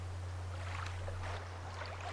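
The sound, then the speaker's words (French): Water lapping at a riverbank, heard as a soft, continuous wash with a steady low drone running under it for the whole stretch, no voices. “De ma place, en effet, je n'entends rien que l'eau qui clapote et la voix du gardien qui rappelle ses chevaux dispersés sur le bord.”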